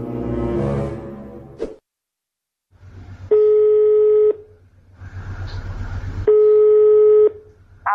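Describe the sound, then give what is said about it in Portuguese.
A telephone call being placed to a sister-in-law: a brief tone, a short silence, then the line's ringing tone sounds twice. Each ring is a long, steady buzzing burst over a low hum. “A Ingrid resolveu ligar para a cunhada Margot, que foi quem passou a notícia para ela.”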